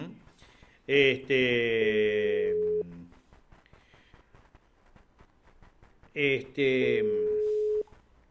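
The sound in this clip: A telephone ringback tone sounds while a call is placed: a long, buzzy, harmonic-rich tone lasting about two seconds, then a gap, then the same tone again, over a faint background.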